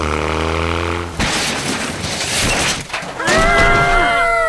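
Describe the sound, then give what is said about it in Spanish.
A car crashes after a man swerves to avoid a pothole in the street: a steady tonal sound breaks into a loud, abrupt crunching and shattering burst that trails into rough noise, then a high tonal sound. “¿Qué pasó? Un hombre chocó por evitar ese hueco en la calle.”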